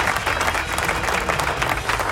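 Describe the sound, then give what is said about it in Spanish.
Applause from a crowd: dense, continuous clapping that stays steady and fairly loud throughout, with no distinct voices over it. “Así que aplauso a JC River, como siempre.”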